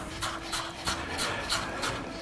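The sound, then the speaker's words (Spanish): A knife finely chopping onion on a board, a steady series of evenly spaced, crisp cuts at a brisk, regular rhythm. “Igual estoy cortando demasiada cebolla, ¿eh?”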